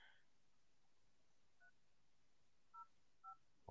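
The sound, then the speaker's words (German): Telephone keypad tones as a number is dialed: a few short, evenly pitched two-tone beeps spaced apart, fairly faint, with no talk. “Ich werde diese Nummer anrufen.”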